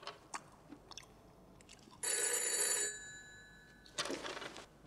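A telephone bell rings in a room in two loud bursts, each a shrill, metallic trill lasting about a second, separated by a short pause. A few faint short cracks come before the first ring.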